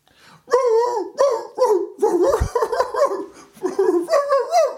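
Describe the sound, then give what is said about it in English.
A man imitates a dog, barking and howling in a run of several voiced, tune-like bursts. The yelps rise and fall in pitch and are fairly loud, with short gaps between them. “I'm not barking. Let's hear a fully committed dog from... he's warming up. He's limbering up.”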